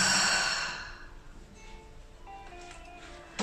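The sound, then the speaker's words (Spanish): A deep breath exhaled through the mouth during a guided breathing exercise, a loud airy rush that fades over about a second into soft, quiet hiss. “Inhala, larga y profundo. y exhala por la boca.”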